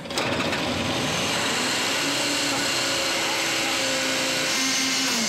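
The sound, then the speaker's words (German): Abnormal screeching from a faulty hydraulic pump or auxiliary drive bearing on a vehicle with the parking brake set: a loud, continuous whining roar with faint thin tones that edge upward over time. “Das Gekreisch ist nicht normal. Das Problem ist jetzt, das Geräusch kann ja aus der Pumpe oder aus dem Nebenantrieb kommen. Das Lager kann ja auch im Nebenantrieb kaputt sein.”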